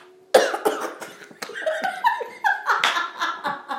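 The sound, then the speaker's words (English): A person coughing after choking on a breath: one sharp, loud cough bursts out, then a string of rough, sputtering coughs and gasping, laugh-like breaths. “I breathed incorrectly and choked.”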